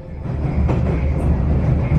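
A Russian metro train runs underground with a steady, loud low rumble and a faint rattle of wheels on track throughout. No one speaks.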